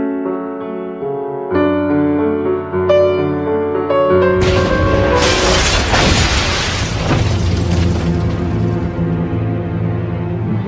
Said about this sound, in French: Voilà comment on fêtait un piano avec une bonne bombe.